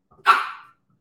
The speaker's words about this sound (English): Sorry about my dog barking, by the way.